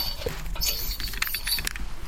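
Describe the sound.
A sewing machine runs steadily, stitching a fabric costume cap with a white edge using red upper thread, a busy mechanical clatter of small rattles and creaks at moderate volume with no voices.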